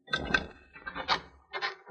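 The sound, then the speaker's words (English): Knocking on a house door: a few dull wooden knocks that come in short groups separated by brief pauses. “Nobody was outside the house, so I knocked and waited.”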